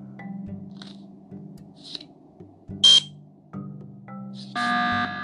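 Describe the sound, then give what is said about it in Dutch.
An emergency meeting alarm from a video game sounds as buzzer-like electronic tones in short bursts. A sharp, loud blast comes partway through, and the alarm ends in a sustained, bright blare. “Echt, waarom steeds een emergency meeting?”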